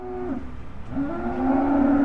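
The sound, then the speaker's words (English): Cattle mooing at a stockyard before a cattle auction in Hanford, California: two low bovine moos, the first short and the second longer and drawn out, with no talk over them. “A cattle auction is set to begin at Overland Stockyard in Hanford, about 40 minutes south of Fresno.”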